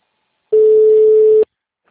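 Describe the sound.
A telephone tone sounds while a call is being transferred: one steady, mid-pitched beep lasting about a second, loud and alone, starting and stopping abruptly.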